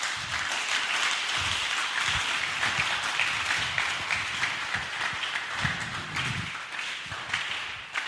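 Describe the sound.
A church audience claps together during a worship service. The clapping is steady and rapid, fairly faint, and runs continuously for the full eight seconds, with a few stronger bursts along the way.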